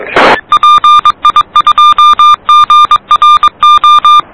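Very loud radio beeps on an amateur radio net: a brief burst of static, then many rapid, steady mid-pitched tone pulses, some short and some longer, in an irregular keyed rhythm.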